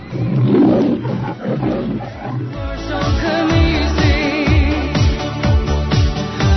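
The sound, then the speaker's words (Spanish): A lion roaring, like the roar that opens a film: a loud, deep opening roar followed by a series of rhythmic, throaty grunts. “¿Qué significa el ruido del león? Pues que va a empezar la película.”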